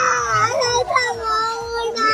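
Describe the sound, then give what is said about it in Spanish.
A little girl cries in a tantrum over a doll she does not want, a loud, continuous wail whose high pitch wavers and bends up and down. “Man, hace un berrinche la niña. Pero no puedes escoger, es una linda muñeca, no puedes escoger la más grande. ¿Qué cosa? ¿Es en serio? Wow. La niña llora porque no es la muñeca que ella quiere.”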